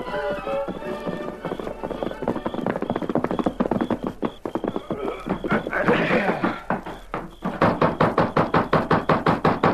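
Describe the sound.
Horse hooves clip-clop as riders set off, a run of rhythmic knocking steps that becomes louder and more evenly paced toward the end.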